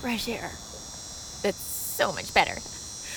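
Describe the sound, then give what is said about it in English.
Insect buzzing outdoors, a steady high-pitched drone that runs continuously and faintly beneath a person speaking in short bursts. “You can probably hear some buzzing in the background. No, that's not my microphone cable. That's an animal.”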